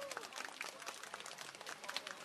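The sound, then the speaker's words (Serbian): Audience applause for a former primary school director: a dense, steady patter of many hands clapping, fairly faint throughout. “Ajmo jedan aplauz za bivšeg direktora. Jel može?”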